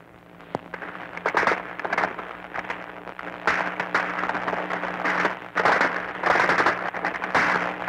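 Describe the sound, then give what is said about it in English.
Machine guns trade fire in a battle around heavily shelled and bombed fortifications. Intermittent bursts of crackling gunfire rise and fall over a continuous rough noise background, with no talk. “There's a little duel going on between machine guns now.”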